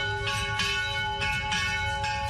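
Church bells ring at an old Armenian church during Christmas celebrations: a sustained, layered metallic tone struck several times in an uneven rhythm, heard fairly quietly.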